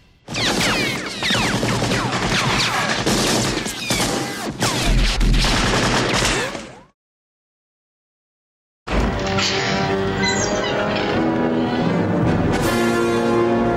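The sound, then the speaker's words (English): Gunfire from a shootout in a burning bar in the film Raiders of the Lost Ark. Dense, loud bursts of shots run continuously for several seconds, then break off into silence before a sustained tonal passage begins. “And now now we're introduced to the Nazis and guns, and then like the bar catches on fire. There's the shootout.”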